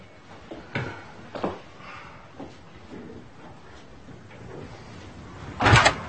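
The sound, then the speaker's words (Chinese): A door being closed: a few soft knocks and rustles, then one loud, sharp bang near the end. “请帮我把门关上吧。 好的。”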